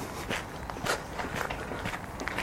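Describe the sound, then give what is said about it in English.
Footsteps walk along the towpath of the Worcester and Birmingham Canal, a steady, even series of soft, fairly quiet steps over a low continuous background hiss. “So we're currently walking down the Worcester and Birmingham Canal towards Birmingham City Centre.”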